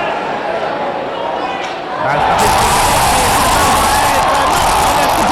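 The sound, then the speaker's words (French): Hockey fans in an arena in Quebec erupt into a broad crowd roar of cheering. A quieter murmur of crowd noise swells after about two seconds into a loud, sustained cheer. “Vous avez entendu les partisans ici. C'est ça, tous levés d'un trait.”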